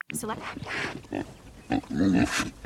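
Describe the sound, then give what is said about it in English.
A pig grunts in a few short, low, rough bursts. The grunts cluster near the end of the brief clip. “Pig number one. Here's a pig.”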